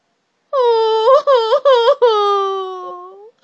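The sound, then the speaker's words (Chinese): A voice imitates crocodile parents crying, letting out a few short wailing sobs that break off and restart, then one long drawn-out moan that slowly falls, loud and alone. “鳄鱼爸爸和鳄鱼妈妈彻底失望了，他们哭了起来。伤心的喊道”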